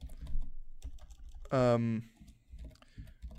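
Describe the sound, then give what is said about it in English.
Typing on a computer keyboard: rapid, uneven clicks and taps run throughout, briefly overtaken midway by a short, loud voiced sound, with quiet talk around it. “recording the next episode whilst typing this”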